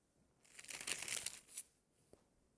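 Thin Bible pages rustle and crinkle as they are turned. The soft papery crackling builds into one main burst, then a faint tick follows. It is quiet overall.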